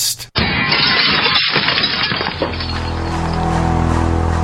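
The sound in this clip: Glass smashes in a burglary break-in: a sudden loud crash, then a long, splintering spray of shattering shards that settles into a steadier, lower rumble.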